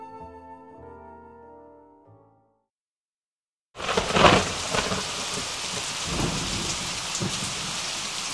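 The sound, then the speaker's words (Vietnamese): A thunderstorm with rain and repeated thunder, under clouds dark enough to make the sky look like night, brings a loud, steady hiss of rain with low rumbles of thunder. It rises strongest just after it begins, following fading music and a brief silence. “Sấm sét nổ liên hồi, mây kéo dài trông như trời đã tối.”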